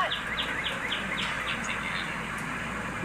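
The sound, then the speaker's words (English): A bird tweets beside train tracks, giving a quick run of many short, high, down-sweeping chirps that grow fainter after the first half, over a steady low background hiss. “Did you actually hear a bird tweeting in the background?”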